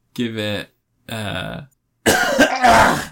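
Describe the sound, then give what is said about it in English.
A person coughing without covering the mouth: two voiced, throaty bursts separated by short pauses, then a longer, harsher and noisier cough, all loud. “Can you not cough everywhere? That's so gross. At least cover your mouth”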